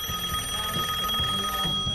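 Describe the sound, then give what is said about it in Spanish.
A telephone ringing with a steady, high electronic tone held for the whole clip, with soft low pulses beneath and no talk. “Me están llamando, espera. ¿Está sonando?”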